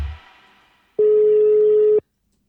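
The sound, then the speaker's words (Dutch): One ringback tone from an outgoing telephone call: a steady, pure mid-pitched beep lasting about a second. It starts and stops abruptly after a faint fading sound and is followed by silence. “Ik ga bellen met Erik Scherder.”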